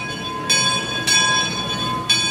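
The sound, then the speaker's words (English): Disneyland Railroad train engine: a steady high, ringing tone holds throughout, broken by three sharp, bright bursts spaced unevenly. “This sounds like the different engines of the Disneyland Railroad.”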